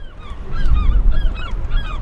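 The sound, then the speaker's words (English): Gulls calling over a storm-damaged port in Crescent City near the Oregon border, a few short, harsh squawks repeating over a low, steady rumble, no voices. “On the morning after evacuation orders were lifted for Crescent City, even the circling gulls seemed alarmed by the carnage”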